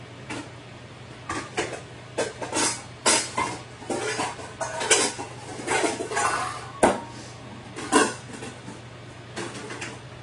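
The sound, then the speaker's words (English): Cooked noodles being moved into a different dish: many irregular clinks, clatters and scrapes of utensils against dishware, some sharper than others, over a steady low hum. “I'm gonna transport these noodles into a different dish.”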